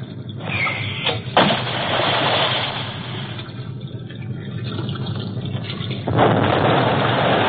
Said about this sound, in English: Exactly 5 seconds, give the order to release depth bombs. Yes, sir. Stand by to release bombs.